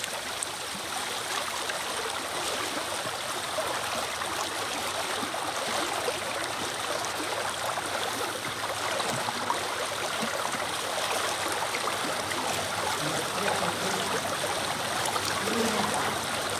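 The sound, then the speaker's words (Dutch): Steady rushing and gurgling of the Ruiten Aa stream in Groningen flowing continuously at an even level, with no talk. “Ja, die Ruiten A die stroomt wel.”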